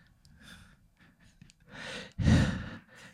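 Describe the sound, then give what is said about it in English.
A man imitates heavy breathing with a few breathy, noisy exhales and inhales, the last one louder and rougher, alone with no talk. “He breathes real heavy.”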